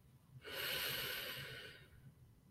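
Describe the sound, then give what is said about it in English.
A single deep breath in during a guided mindful breathing exercise. It is a smooth, airy rush lasting just over a second that swells quickly and slowly tapers off, heard alone. “Close your eyes and take a deep breath.”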